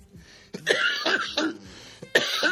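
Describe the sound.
Coughing after smoking cannabis: a few harsh, raspy coughing bursts come in two clusters with a brief pause between, loud against near silence.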